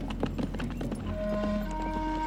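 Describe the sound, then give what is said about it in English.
Horse hooves clip-clopping as riders of a posse mount up and ride on, a quick, uneven run of hoof beats that settles into a steadier stream. “Monahan mounts up.”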